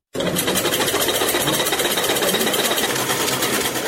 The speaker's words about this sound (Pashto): په دې خیاطي کارخونه کې چې یو وخت ګڼ شمېر ماشینونه چلیدل اوس یوازې څو محدود ماشینونه فعال دي.